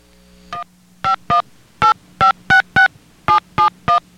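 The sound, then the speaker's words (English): Touch-tone keypad beeps dialing a calling card number: about eleven short, bright dual-tone beeps in a quick, slightly uneven rhythm, with a faint steady hum on the line between them. “Please enter your card number. You may dial now.”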